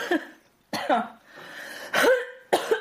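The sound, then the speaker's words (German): A person coughing and clearing phlegm: four harsh, wet bursts with short pauses between them, moderately loud. “Entschuldigung, ich bin schon wieder am Rotzen”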